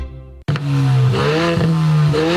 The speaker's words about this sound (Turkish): Arabada susturucu yokmuş.